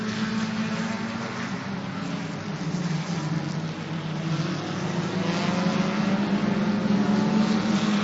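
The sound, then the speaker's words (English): Race cars roar down the front straightaway of a track, a dense, continuous engine drone that swells slightly louder toward the end. “that 118 car looking really strong as they come down the front straightaway to corners 1 and 2”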